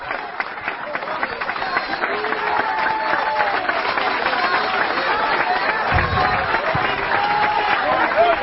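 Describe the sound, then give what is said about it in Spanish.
An audience at a church service applauds in a sustained, even roar of clapping, with voices calling out over it throughout and no break in the sound. “Denle un aplauso a Cristo, que Él se lo merece.”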